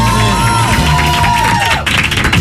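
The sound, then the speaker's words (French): A crowd at an athletics challenge contest cheers and applauds loudly, with whoops and shouting voices over steady clapping, briefly dipping before surging again near the end. “Et ça s'applaudit.”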